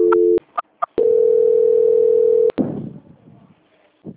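Telephone tones during a call transfer: a short two-tone beep and a couple of brief blips, then a long, steady, loud tone that cuts off with a click, followed by faint noise.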